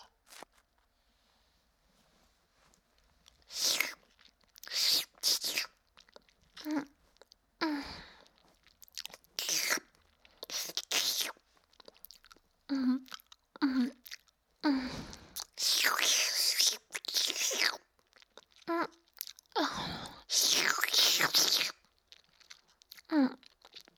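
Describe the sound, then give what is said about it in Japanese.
ASMR ear massage sounds: crisp, crunchy rubbing and rustling against the ear in irregular bursts of a second or two, separated by quiet gaps, with soft whispering among them. “いつもはしないんですけど、特別なお耳のマッサージをさせていただきますね。”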